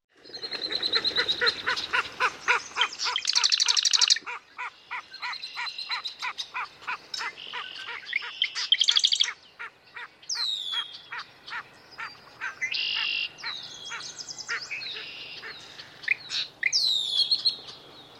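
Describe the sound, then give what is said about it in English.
Clay-colored sparrow song: a long run of rapid, evenly repeated buzzy notes in several bursts, mixed with other birds' high chirps and calls throughout. “Clay-colored sparrow.”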